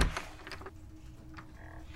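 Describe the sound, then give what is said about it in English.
A door closes with dull thunks, one near the start and a sharper knock at the very end, over a low steady background hum. “Don't let that door smack your arse on the way out.”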